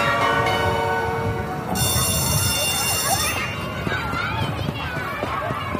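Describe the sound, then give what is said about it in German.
A bell ringing to mark the start of a session, a bright, sustained metallic ring that grows brighter midway and stops after about three seconds, leaving noisier background sound. “Das war die Klingel zum Anfang.”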